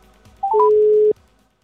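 Telephone tones as a number is dialled: a few short, slightly higher beeps, then a steady, fairly loud held tone lasting about half a second, with no talking.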